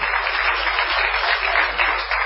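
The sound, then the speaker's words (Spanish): Audience applause in a theatre in Buenos Aires, a dense, steady patter of many hands clapping throughout at an even loudness without a break. “Estamos hoy en el barrio de La Boca, señores. Sí, pueden aplaudir.”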